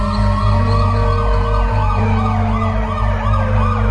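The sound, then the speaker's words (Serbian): Police and ambulance sirens wail loudly, with repeated rising and falling sweeps over a steady low engine hum. “Dolazi policija i hitna. Vidim ih.”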